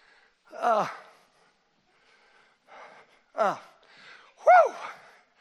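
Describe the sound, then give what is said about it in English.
Heavy, gasping breaths from a man trying to catch his breath: a few sharp, voiced gasps with a strained, falling tone, separated by quieter breathing. “I'm trying to catch my breath.”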